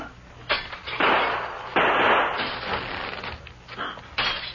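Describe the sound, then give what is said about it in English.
Window glass is smashed in a tense standoff, giving several rough, noisy crashing bursts with a sustained, fairly quiet, gritty clatter between them. “As soon as he fires, you raise the shade, and I'll smash this window.”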